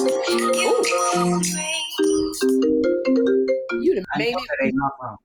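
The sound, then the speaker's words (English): An incoming call ringtone plays on a computer: a loud, bright melodic tune of stepped, sustained notes, growing choppier toward the end before cutting off abruptly. “Kim Whitley is gonna call and my calls go through my computer.”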